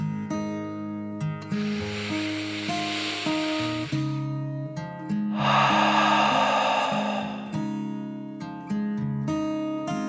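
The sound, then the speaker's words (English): A dragon's deep breath in and out: two long, airy rushes of breathy hiss, each lasting a few seconds, rise over a bed of soft, steady music. “She took a deep dragon breath in and out.”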